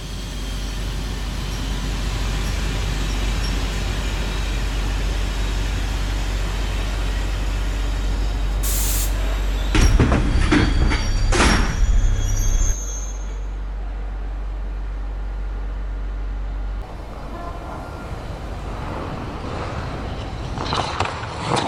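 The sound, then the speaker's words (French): A train pulls into a station over a steady low rumble. A few bursts of air-brake hissing and clanking sound partway through, then the rumble settles quieter. “Le Galaxy Express 99.9, en destination de la planète Rametal, arrive en gare de la planète Zwipe.”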